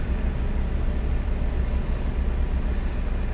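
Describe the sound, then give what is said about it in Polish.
Truck engine and road rumble from driving across a bridge in Romania in Euro Truck Simulator 2. The low drone holds at an even, constant loudness with no talk over it. “Nie wiem gdzie ja w ogóle jadę, gdzie ja wjechałem. ale zgodnie z GPS-em. przejazd przez jakiś most.”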